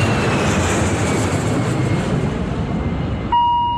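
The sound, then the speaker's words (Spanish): A Boeing airliner takes off with a loud, broad, steady rushing roar of jet noise. Near the end a sudden high electronic tone cuts it off. “Va a despegar el Boeing 630 del LS5 Radio Rivadavia.”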